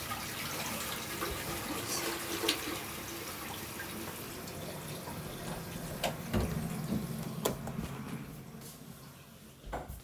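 An automatic toilet flushes on its own, a long continuous rush of water at a faint, steady level, broken by a few soft clicks.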